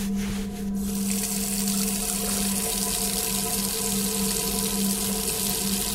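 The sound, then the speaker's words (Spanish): Tap water runs steadily into a bathroom sink while someone washes, a loud, even rushing hiss that continues without a break. “Comienza a quitarse la playera y decide lavarse en el lavabo.”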